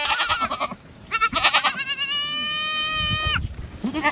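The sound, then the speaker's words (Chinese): A ewe bleating as she searches for her lamb, a few calls, the longest a sustained, wavering nasal bleat in the middle. “现在他找不到他的孩子，你看把那母羊急的左顾右盼，嗯，到处乱走，不停地叫唤。”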